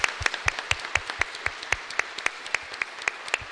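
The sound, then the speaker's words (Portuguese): An audience claps in a steady, rhythmic beat at a church service in a sanctuary of Our Lady of La Salette. Many sharp, evenly spaced claps keep a brisk regular pulse throughout, with no talking. “Saudemos nossa mãe com uma salva de palma forte e bonita.”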